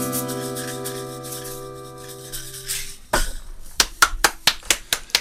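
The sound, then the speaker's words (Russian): Hand clapping starts after sustained tonal music fades out, building into a steady run of sharp, evenly spaced claps. “Вы не подумайте, что только я один вам аплодирую. Тысячи и тысячи, десятки тысяч людей, наших слушателей, уверен, присоединяются ко мне.”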